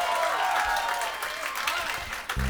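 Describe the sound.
Concert audience at The Red Room applauding a band after its set, with dense, steady clapping that stays loud throughout the short clip.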